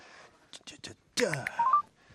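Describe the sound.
A telephone keypad beeps three quick, evenly spaced tones as an emergency number is dialed, then a brief burst of voice follows.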